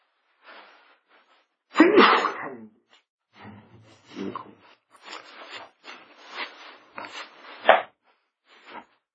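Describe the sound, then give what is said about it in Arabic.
A sudden, loud sneeze bursts out near the start, then gives way to quieter, scattered breathy noises and rustling. “هذا عطس عادي ليس يلا سبب عادي.”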